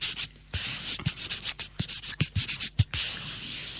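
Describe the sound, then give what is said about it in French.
Rasping strokes of huge, ordinary traditional nail files rubbed together as a musical sound, coming as many quick, rhythmic scrapes after a short pause, dry and gritty with a steady back-and-forth pulse. “le disque, ce sont des limes à ongles, tout à fait normales, traditionnelles. Je m'en suis sur le disque. Elles sont énormes. Qui sont frottées, et qui produisent des sons d'ailleurs frottées.”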